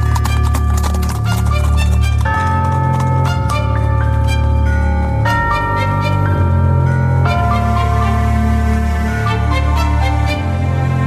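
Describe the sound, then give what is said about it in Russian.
Hooves of carriage horses clatter as they gallop off pulling a covered wagon, loud and continuous through the whole stretch, beside sustained ringing tones. “ямщик свистнул, и лошади поскакали.”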